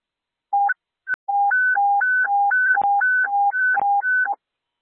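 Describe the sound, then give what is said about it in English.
Electronic test tones from a daily radio channel sound test at an airport communication center: a steady run of many short beeps alternating between a lower and a higher pitch, clean and even in rhythm. “All units, stand by for the daily sound test.”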